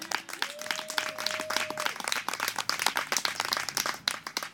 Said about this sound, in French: applaudit bien fort Nimu